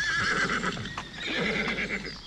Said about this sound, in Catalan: En aquest prat hi pastaven vaques, hi trotaven cavalls.